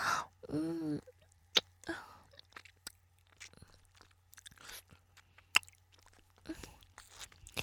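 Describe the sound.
An ice pop being bitten and chewed, a thick, long stick eaten just after salty crayfish. Faint, scattered crunches and wet mouth clicks come through in uneven bursts over a quiet background.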